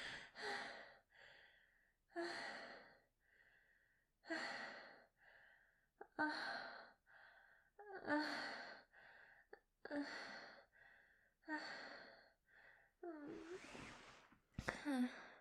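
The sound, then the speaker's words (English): Heavy, out-of-breath breathing from a person, with repeated breathy gasps and exhales in a fairly steady rhythm roughly every second or two. The breaths are faint overall. “I can't even laugh. I'm so out of breath.”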